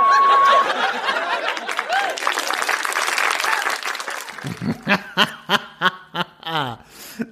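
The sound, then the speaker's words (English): A live audience applauds in a dense, even wash of clapping that thins into scattered chuckles and laughter, with voices talking over the crowd. “And you can hear there in the background a live audience.”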